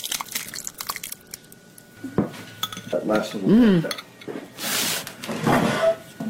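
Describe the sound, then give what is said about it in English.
Dishes and cutlery clatter as Mountain Shoshone soup with biscuit root, cooked over a wood fire, is ladled out and served; irregular clinks, scrapes and knocks of moderate loudness run through the whole clip. “I thought we would sample some of this this Mountain Shoshone soup. And we're cooking it over a wood fire. And I'm going to serve everybody up.”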